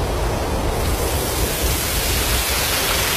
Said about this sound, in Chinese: 这是风声